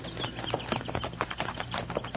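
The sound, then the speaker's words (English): Horses' hooves clatter over a rocky trail in a dense, rapid patter, with many overlapping hoofbeats beneath a constant noisy rumble. “those horses over there”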